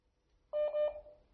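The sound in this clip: A single electronic telephone tone sounds while a call fails to connect. It is a steady, mid-pitched beep of about half a second, fading out after a quiet start.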